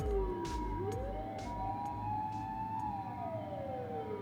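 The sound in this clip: Ambulance siren passing outside an open studio window on a busy street near a fire station. A faint wailing tone rises, holds, then falls in pitch over a low traffic rumble, with no talk.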